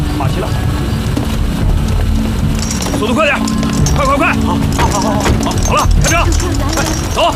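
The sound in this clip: Horses' hoofbeats amid constant urgent shouting from several people, all over a dense, steady layer of background commotion.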